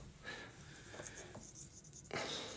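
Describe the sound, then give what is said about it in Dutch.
Handwriting on paper: a pen scratches out a few quick, dry strokes, with short pauses between them and a louder scrape near the end, faint and alone with no voices. “Kunt u vertellen wat u aan het schrijven bent?”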